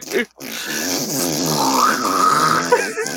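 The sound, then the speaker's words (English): Two people vocally imitate a halfling being slowly impaled on spikes, a short grunt followed by a strained, drawn-out groaning that climbs in pitch partway through. “For any podcast listeners, that was the sound of two entertainment professionals. Miming...”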